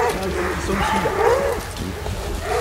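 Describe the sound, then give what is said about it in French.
Hunting dogs bark and yelp through the trees during a chase, a steady stream of overlapping high cries and whines that rise and fall at moderate loudness. “Les chiens sont là. J'ai trop chassé les chiens. Vous entendez ? Là, à travers les arbres, là, on voit les chiens.”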